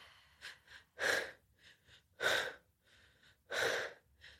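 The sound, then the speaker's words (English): Deep breathing during a guided relaxation exercise: three loud, airy breaths come at even intervals, with softer, shorter breaths between them and no talk. “holding the deepest breath. And relaxing the breath.”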